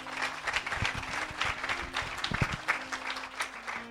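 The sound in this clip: A church audience applauds, with dense, steady clapping that continues throughout without a break.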